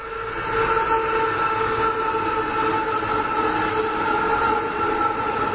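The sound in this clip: A train passing overhead, a heavy steady rumble with sustained humming tones that stays loud and even from start to finish, with no voices.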